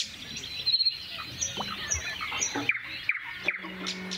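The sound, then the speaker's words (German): Nightingale singing at dawn in quiet countryside with no traffic, a string of short high whistled notes and sharp chirps in several brief phrases, moderately faint. “Nur dann die Natur. Da ist die Nachtigall.”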